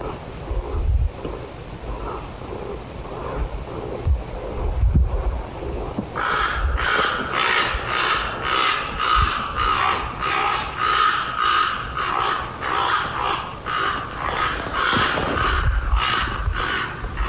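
Ravens fighting at night let out harsh, repeated croaking caws that start partway through and continue in a rapid, irregular series over a bed of rushing wind-like noise with a few low thumps early on.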